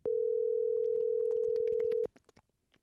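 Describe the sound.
A telephone dial tone is heard while a call is being placed: a loud, steady single-pitch tone lasting about two seconds. It cuts off abruptly and is followed by a few faint clicks.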